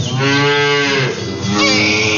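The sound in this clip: A dairy cow moos at morning milking time: a long, low, drawn-out call, then a second, shorter bellow, loud and clear with no talking.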